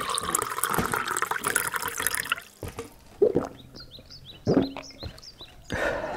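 Water poured into a glass: a splashy pouring burst, then a few short gurgling trickles with a bright, ringing tone.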